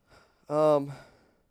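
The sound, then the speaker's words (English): A single drawn-out voiced yawn, the second in a row, swelling from a soft breathy start into a loud tonal middle about half a second long, then trailing off in a fading breathy exhale. “there's yawn number two”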